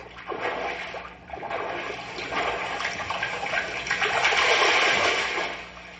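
Water splashes and churns as a swimmer finishes laps in a pool after 300 yards, a continuous wash of sloshing that dips briefly, then builds louder toward the end.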